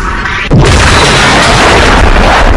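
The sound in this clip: A missile intercept explosion in a video game: a sudden loud boom that breaks over a steady background noise and swells into a sustained, heavy rumbling roar that carries on to the end.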